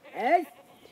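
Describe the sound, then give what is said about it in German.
One goat bleats as goats graze on an island: a loud, wavering, nasal cry with a falling contour, lasting under half a second before fading into quiet. “Die Ziegen grasen überall auf der Insel.”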